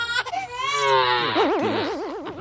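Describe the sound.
A crying sound effect: a drawn-out, exaggerated wail whose high, harmonic tone ends in a quick, quavering wobble over the last second, loud and steady with no talk.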